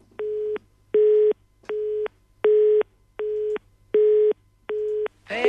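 A telephone busy tone after a dropped call: seven evenly spaced, steady mid-pitched beeps, each about half a second long, pulsing with short silent gaps.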